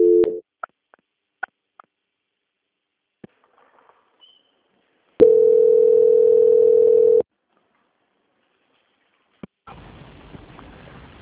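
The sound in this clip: Telephone line tones during a call transfer: a brief tone at the start and scattered soft clicks, then a steady, even tone lasting about two seconds. It stops, leaving quiet, followed by a low hissy line noise.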